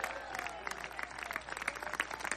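Scattered applause from a church audience, a fairly faint patter of uneven hand claps running steadily throughout, with a sustained tone and some murmuring underneath.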